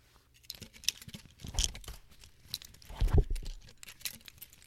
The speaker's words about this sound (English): I'm gonna take off my name badge.